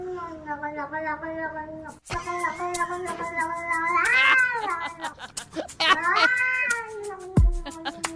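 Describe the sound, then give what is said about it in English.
A stressed cat warbles in long, drawn-out meows with a wavering, quavering pitch that climbs sharply in places. The clear, tonal cries run almost without a break, and a falling note closes the sequence. “That's a cat warbling. It sounds like they're stressed out sound.”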